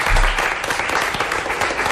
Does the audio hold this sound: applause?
yes